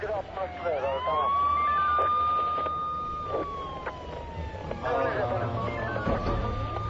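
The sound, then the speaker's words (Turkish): An ambulance siren wails as it arrives: one long, steady tone that sweeps upward, holds, then slowly sinks, with voices and clatter mixed in near the start and end. “Ambulans geldi efendim.”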